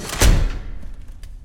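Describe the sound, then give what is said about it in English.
A morgue cadaver drawer holding a body in a bag is pushed shut with one heavy thud, and a low rumble lingers and fades for over a second afterward. “She pushes Hannah's body the rest of the way into the drawer, and a blood droplet falls on the bag.”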